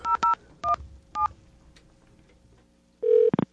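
Telephone keypad dialing tones: four short beeps, the first two close together, then a pause, a longer steady tone, and a few rapid loud bursts, the kind of signal heard when calling from a line cut off for an unpaid bill.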